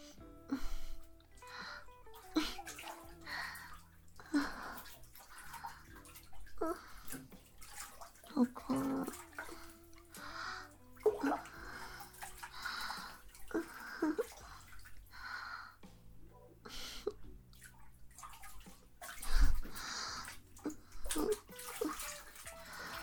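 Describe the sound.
Water sloshes and splashes in a bathtub as people bathe together, with many soft, irregular splashes and drips that rise and fall throughout, faint overall.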